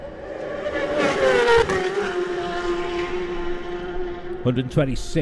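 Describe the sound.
A racing motorcycle flashes past the grandstand at speed. Its loud, high engine whine holds steady, then drops in pitch as it goes by, and a voice talks near the end.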